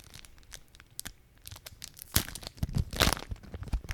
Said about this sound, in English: So I'm gonna open this new pack and get you that sweet packet ASMR.